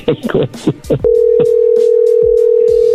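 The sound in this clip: A telephone call is cut off: after a brief burst of voice-like sound, a steady single-pitch dial tone takes over and holds, loud and unbroken, to the end.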